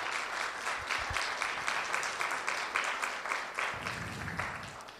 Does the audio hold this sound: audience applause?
yes